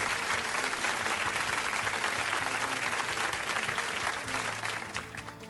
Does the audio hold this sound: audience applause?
yes